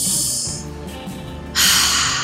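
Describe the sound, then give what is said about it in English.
Deep breathing is heard as two long, airy breath sounds separated by a short quieter gap, with the second breath louder than the first. “Should we take a breath together?”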